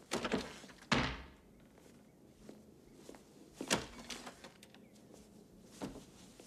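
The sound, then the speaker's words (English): Bedroom doors are opened with a few dull thunks and clunks of wood and latches, separated by quiet stretches. “He goes down to his bedroom and opens doors.”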